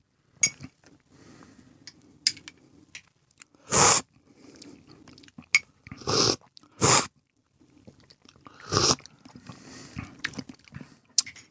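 Tasting Ethiopian coffee from a spoon: four loud, sharp slurps stand out among soft clicks and small mouth noises, with quiet gaps between them.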